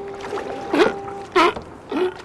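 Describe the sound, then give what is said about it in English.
Sea lions barking by the water at Moss Landing: three loud, hoarse, harmonic barks spaced roughly half a second apart, each with a bending pitch, over a low steady background. “over the din of barking sea lions”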